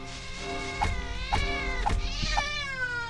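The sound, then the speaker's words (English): Cat meows from a video game, the witch's pet familiar, sounding a few times over a steady harmonic background, moderately loud and with no talk. “That's a cat.”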